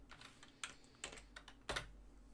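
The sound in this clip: Someone types a git commit message on a computer keyboard: a faint, irregular run of separate key clicks, with one firmer press near the end.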